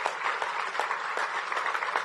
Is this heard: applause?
yes